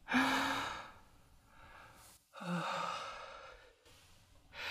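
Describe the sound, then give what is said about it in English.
A slow, deep human breath: a long, airy inhale followed by a long exhale, then another breath beginning. It is soft and breathy, with no talking. “Relax. Take a deep breath.”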